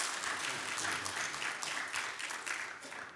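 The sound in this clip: A Baptist church audience at Maranatha Baptist Church in West Virginia applauds to welcome a guest speaker, a steady, sustained wash of clapping that holds at an even level before easing slightly at the end.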